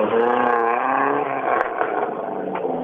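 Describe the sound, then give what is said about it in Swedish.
A rally car's engine runs steadily after being restarted, a loud, rich, droning tone with little change in pitch that eases off slightly toward the end. No voices are heard. “han har skruvat men han har fått igång bilen i alla fall”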